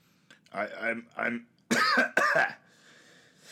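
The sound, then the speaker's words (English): A person coughs: throaty, voiced throat-clearing sounds lead into two loud, harsh coughs in quick succession, then a quiet breathy tail. “Now I'm coughing because that's how.”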